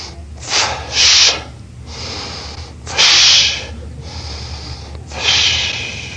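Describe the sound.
A voice imitates a sleeping person snoring with a few drawn-out, hissing snorts and breaths. Each one swells and fades, with pauses between, and there is no talk.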